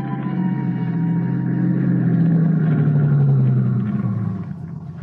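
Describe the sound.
A car engine drones steadily as the car drives up a mountain road to a camp, a low even hum that holds its level, then eases off slightly near the end.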